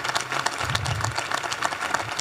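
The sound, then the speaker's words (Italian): Applause from an audience at a ceremony honouring a departing female director. The clapping is a full, continuous patter that holds a fairly even level throughout, with no distinct pauses. “vi propongo di fare un applauso straordinario alla dottoressa Rita Barber”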